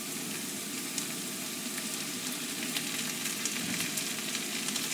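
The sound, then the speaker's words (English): Onions, peppers and garlic sizzle in a pan for ratatouille, giving a steady, fairly quiet hiss flecked with small crackles and pops throughout. “so I've got the onions and peppers in the pan with the garlic.”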